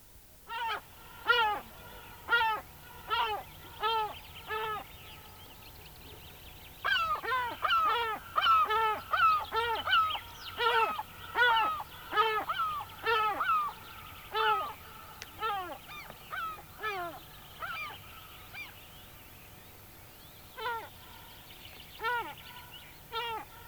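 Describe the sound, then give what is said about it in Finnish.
Herring gull calls: a long series of loud, harmonic, yelping cries repeated in rhythmic bursts, with short pauses between runs, heard alone. “Harmaa lokki.”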